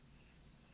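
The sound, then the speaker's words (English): One faint, high cricket chirp sounds briefly in a studio over a quiet background. “I'm laughing because there's a cricket in the background.”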